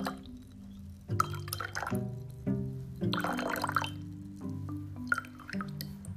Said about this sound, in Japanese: お茶を注ぐ時はですね少しずつ、え注ぐのがポイントになります